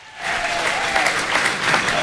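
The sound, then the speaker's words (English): An audience breaks into applause, a dense, steady clatter of many hands clapping that starts abruptly and stays loud throughout. “Andy Moore, ladies and gentlemen, give me a huge round of applause.”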